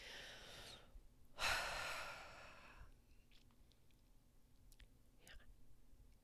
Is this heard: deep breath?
yes

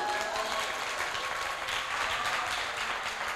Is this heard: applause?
yes

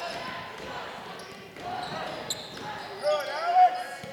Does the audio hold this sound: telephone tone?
no

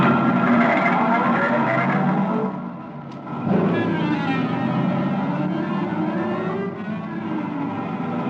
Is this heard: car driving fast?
yes

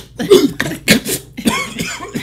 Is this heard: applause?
no

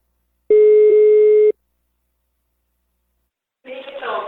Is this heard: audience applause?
no

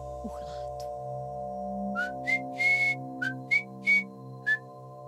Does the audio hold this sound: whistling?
yes

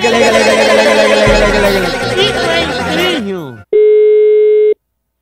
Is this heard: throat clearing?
no

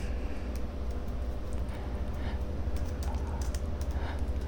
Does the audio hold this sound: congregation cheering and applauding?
no

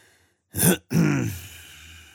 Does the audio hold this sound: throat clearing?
yes

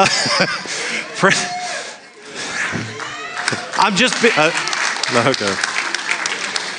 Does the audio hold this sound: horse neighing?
no

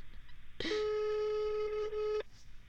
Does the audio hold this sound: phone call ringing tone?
yes

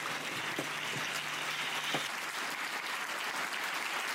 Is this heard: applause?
yes

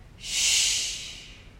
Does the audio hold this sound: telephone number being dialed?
no

